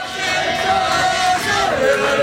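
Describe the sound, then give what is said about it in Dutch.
Crowd cheering as Tour de France riders arrive by bus at a train station, a steady, sustained roar of many voices that holds at an even loudness from start to finish. “Richting dus het treinstation, waar de renners dan met gejuich worden ontvangen.”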